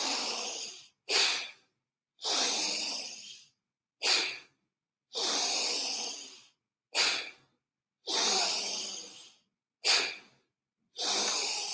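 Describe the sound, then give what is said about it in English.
Slow, deliberate breathing in and out through the nose during a calming breathing exercise. Airy rushes alternate between longer and shorter breaths, each separated by silence, steady and unhurried with no talk. “Breathe in, breathe out.”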